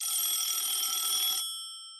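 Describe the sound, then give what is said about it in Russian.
A telephone rings again, giving one continuous high electronic trilling ring lasting just over a second, which then cuts off and leaves faint fading tones. “Только он лег и задремал, как снова раздался звонок.”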